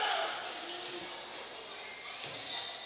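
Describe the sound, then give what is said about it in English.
Basketball dribbling on the court during a boys' basketball game: a few faint ball bounces under steady, loud crowd noise and murmuring voices. “Still rotating the ball with the dribble outside of three.”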